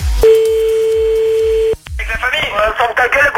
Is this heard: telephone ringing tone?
yes

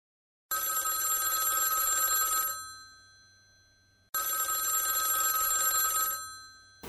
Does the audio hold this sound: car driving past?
no

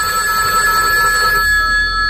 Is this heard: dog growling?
no

